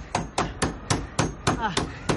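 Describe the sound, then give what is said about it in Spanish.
Hammer blows driving a nail into a wooden plank held against a door, eight sharp, evenly spaced knocks in a steady rhythm, each with a brief woody thud. “Manny sostiene un trozo de madera contra la puerta y Ove la fija con un clavo. Cuidado con los dedos. ¡Clávalo bien!”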